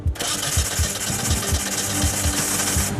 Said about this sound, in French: Le moteur de 1400 cm3 va-t-il démarrer et donner vie à la GT ou pas?